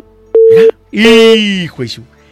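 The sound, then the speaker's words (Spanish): A steady telephone tone on a call-in phone line signals an incoming call: one short, clean, mid-pitched beep, followed by a voice speaking over a longer tone. “Mira, se escucha que están entrando más llamadas.”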